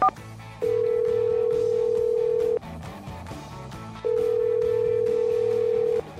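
A telephone call goes out on a studio line. A short beep is followed by two long, steady, mid-pitched ringing tones separated by a pause of about a second and a half.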